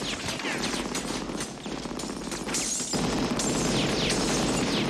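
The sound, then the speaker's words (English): Machine gun fire in a film's drive-by shooting at a house. Rapid, dense, loud bursts of gunfire run without break through the whole clip, with no voices. “then oh, machine gun fire. Drive by.”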